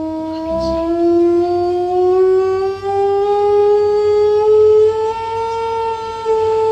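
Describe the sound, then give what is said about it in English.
A sustained resonant note hums inside a tube of fixed length, rich in harmonics, and glides slowly upward in pitch over several seconds. It stays steady and fairly loud throughout after a short low knock near the start. “And what I'm going to do now is I'm going to change the note inside that tube of a fixed length.”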